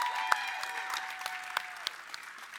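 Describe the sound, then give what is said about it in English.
An audience applauds a speaker's wife with dense, steady clapping that slowly fades, a few sharper individual claps standing out from the mass. “Wow, let's give my wife a great hand.”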